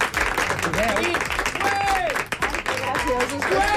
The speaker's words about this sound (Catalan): Bueno, una mica puja aquest aplaudiment. Un aplaudiment més fort. Més fort.